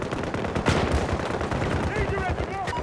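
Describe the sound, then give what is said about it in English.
Gunfire from an M60 machine gun in a video game, a dense, continuous roar of rapid shots with no break, with voices mixed in toward the end. “But I'm a sniper with the M60.”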